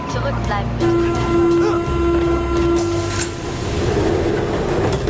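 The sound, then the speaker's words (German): A train arriving at a city rail station: a broad, steady rumble of rolling cars with a long, high, sustained squeal through the middle, holding at an even loudness throughout. “Nein, die Bahn ist wirklich hier!”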